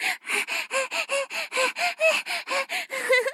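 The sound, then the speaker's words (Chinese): A woman's voice imitates a panting dog with its tongue out, producing a rapid, even series of many short, breathy huffs at a steady rhythm, fairly loud and without words. “学小狗吐舌头喘气给你听”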